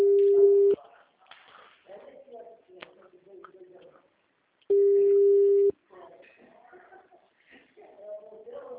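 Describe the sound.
A telephone line rings during a call transfer: two long, steady, low-pitched tones sound several seconds apart, with softer, voice-like sounds filling the gap between them.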